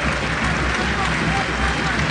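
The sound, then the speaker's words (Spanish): Stadium crowd applauding in tribute at a football match, a dense, even wash of clapping and crowd noise that stays steady and loud throughout without breaks. “Hasta siempre, Francisco, y los aplausos del estadio.”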